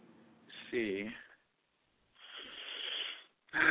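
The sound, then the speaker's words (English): Heavy breathing from a person catching their breath during a phone call. A few loud, rough, breathy rushes of air are separated by short silences, and one of them carries a brief voiced, groaning edge. “I'm trying to take a breath.”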